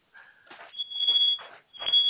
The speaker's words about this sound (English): that would be the smoke alarm